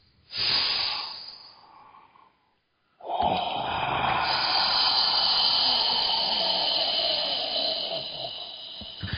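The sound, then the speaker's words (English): A deep breath: a hissing inhale of about two seconds, a brief silent pause, then a long, steady, airy exhale that fades slowly. “Now, another deep breath.”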